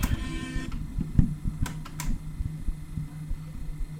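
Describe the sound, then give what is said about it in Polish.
A cassette tape deck mechanism running: a steady low mechanical whirr with irregular small clicks and ticks throughout, fairly quiet and alone. “W ten sposób pracuje dek.”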